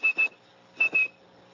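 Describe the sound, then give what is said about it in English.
A person whistles to imitate telephone dialing tones meant to trigger network switches: four short, high, pure notes in two quick pairs separated by a brief pause, then silence. “like blind phone freak Joe and Gracia, you could whistle calls through the network”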